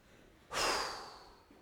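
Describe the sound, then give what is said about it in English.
One deep breath is taken before a scripture reading at a church service. A soft, breathy rush starts abruptly, then fades slowly over about a second. It is quiet and heard alone. “So please, let's take a deep breath.”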